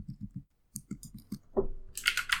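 Keystrokes on a computer keyboard as a search is typed: a few quick, sharp clicks in a short burst, followed by a heavier thump and more clattering noise.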